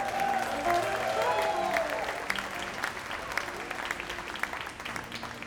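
Audience applause welcomes a singer, songwriter and bass player to the stage: a dense, steady clatter of many hands that eases slightly toward the end.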